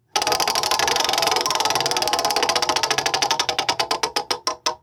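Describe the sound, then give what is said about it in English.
A game wheel spins with a rapid, steady stream of ratchet clicks that gradually slow and spread apart until it stops. “Wheel spin now.”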